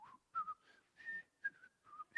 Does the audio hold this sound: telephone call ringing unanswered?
no